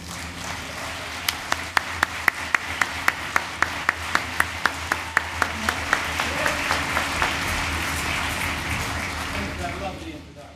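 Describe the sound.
Audience applause greets Livingston Taylor, a Berklee performance teacher, as he takes the stage in Oshkosh. Many sharp individual claps stand out over a steady wash of crowd clapping, which holds and then fades near the end.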